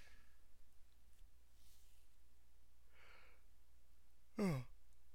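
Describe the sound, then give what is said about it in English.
A yawn: faint breathy exhaling, then a short voiced burst whose pitch falls, alone with no talk. “sorry, that's a yawn.”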